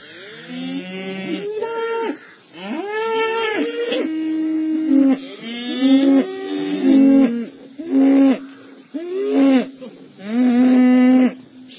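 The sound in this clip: A village herd of cattle lowing, with many deep, drawn-out moos following one another in a steady series, each call loud and sustained with short pauses between, and no talking.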